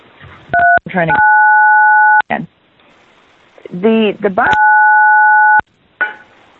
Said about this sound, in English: someone should stop playing with their phone and find something else to do with their hands.